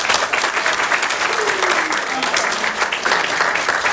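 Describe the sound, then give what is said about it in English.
Applause from an audience for a group of year three clarinet players at a woodwind concert: dense, steady clapping that holds at an even loudness for the whole stretch. “Welcome, everybody. A big hand for the year three clarinets, please.”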